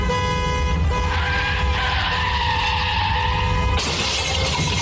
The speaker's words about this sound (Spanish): Ya choqué el carro, primo.